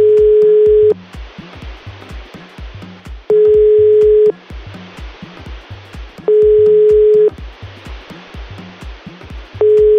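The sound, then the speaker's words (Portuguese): A telephone ringback tone sounds while a call is placed: steady single-pitch beeps about a second long repeat roughly every three seconds. Hissy line noise and a low rhythmic rumble fill the gaps between them. “Vamos tentar ligar de novo, vai? Mais uma vez.”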